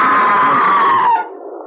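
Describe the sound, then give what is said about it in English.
A single long scream, high and sustained for about a second, then dipping in pitch and fading into a softer, lower tail. “Oh, what scream! There it is again!”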